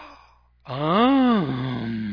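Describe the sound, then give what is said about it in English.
A voice imitates a gasp with one loud, drawn-out voiced cry whose pitch arches up and then down, then settles into a steadier held tone. “And she'd always gasp.”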